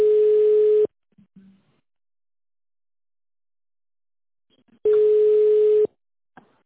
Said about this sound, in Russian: Переадресация звонка.